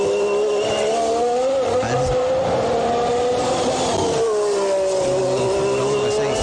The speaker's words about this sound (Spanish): Es un V6. Muy bien, es un V6.